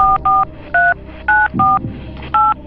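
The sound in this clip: Telephone keypad dialing tones as a call is placed: six short, clear two-pitch beeps in an uneven rhythm, each separated by brief gaps.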